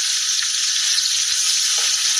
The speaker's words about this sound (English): So here's his pot. This is the lid. So he does a lot of his searing, a lot of his cooking onions.